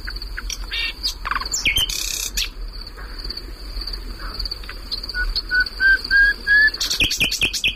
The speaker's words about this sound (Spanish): Este pájaro, por cierto, perdona, está cantando en un lugar que anteayer ardió.